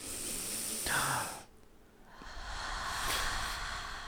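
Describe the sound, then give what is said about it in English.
A deep breath drawn in, a loud airy hiss lasting over a second, then a quieter pause before another long breathy rush of air. “Look, everyone, shh. Take a deep breath in.”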